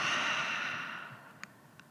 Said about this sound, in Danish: Og tag så en dyb indånding gennem næsen. Og giv slip gennem munden.